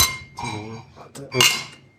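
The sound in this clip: Glasses clinking in a toast among a group of men, a brief bright ringing clink amid surrounding voices.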